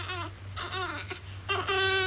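A colicky baby cries in a few short, faint wailing bursts separated by brief pauses, over a low steady hum.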